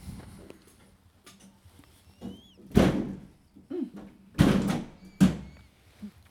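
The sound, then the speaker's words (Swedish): A few dull thuds from a window being shut, brief and uneven, with quiet gaps between them. “jag ska bara stänga ett fönster. Nej, det drar.”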